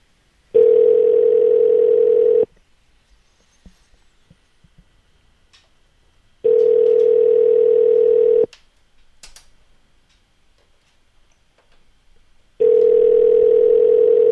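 A telephone dial tone from a broken phone system sounds as three long, steady two-second bursts of one mid-pitched tone, each followed by several seconds of near silence.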